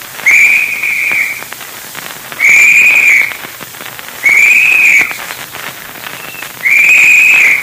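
Four shrill whistle blasts serve as a search party's signal. Each blast lasts under a second and is separated by a pause, over a constant crackling hiss.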